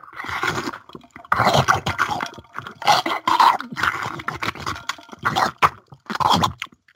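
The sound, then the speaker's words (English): Slurping and gulping from a drink can: several wet, breathy bursts come in an uneven rhythm, each loud and separated by short pauses, with no talk over them. “it's a bit noisy and difficult because I have these awful goat lips, and I am drinking it out of a can”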